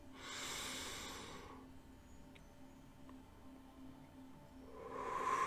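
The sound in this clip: A long, deep breath drawn in through the nose as part of a guided breathing exercise, a soft hiss of about one and a half seconds, then near silence before another inhale begins at the end.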